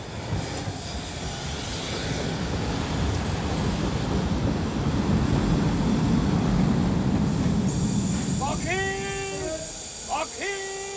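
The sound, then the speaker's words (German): A train pulls in, a broad rumbling roar that swells to a peak midway and then eases, while several high squealing tones sound in short repeated bursts near the end. “Na, da ist er ja, der Zug.”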